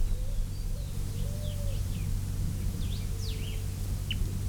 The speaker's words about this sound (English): Three birds still interacting.